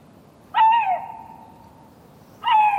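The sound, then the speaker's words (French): A male lynx calls in the breeding season: two loud, tonal, harmonic calls that waver slightly in pitch. The first begins sharply and trails off into a long steady fade, and the second starts near the end. “Cela fait plusieurs jours que je suis la trace de ce mâle. Il n'arrête pas d'appeler. À cette saison, on dit que les lynx chantent.”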